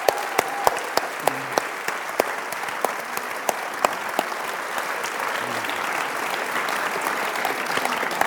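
Audience applause welcomes three guests onto a stage at an event about Fred and Adele Astaire: a steady, dense wash of many hands clapping, with sharper individual claps standing out early on, holding at an even level throughout.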